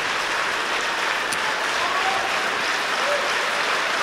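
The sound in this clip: Concert audience applause for the Aarhus orchestra in Symfonisk Sal, a dense, even wash of many hands clapping that holds steady and loud for the whole stretch, with no talk over it.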